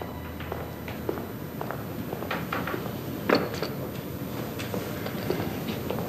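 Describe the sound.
Footsteps climb a staircase in a steady series of many soft, even treads, with one heavier thump partway through.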